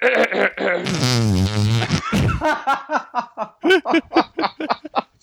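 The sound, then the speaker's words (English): A hand-made fart noise: one long, buzzy blast with a steady tone, followed by quick bursts of laughter and chatter. “That was a hand noise.”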